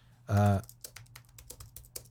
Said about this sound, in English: I'm having to type right now because I'm like, I'm sure I made some notes for things that I was supposed to talk about in this podcast.